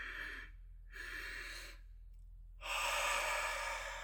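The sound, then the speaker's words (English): Breathing exercise: two short, soft inhales through the nose into the lower belly, a pause, then one longer, louder exhale through the mouth. No talking. “So when I breathe in twice through the nose, say that takes me 4 seconds, I also exhale through the mouth for 4 seconds. So it's just going to be like this. I breathe into my lower belly twice.”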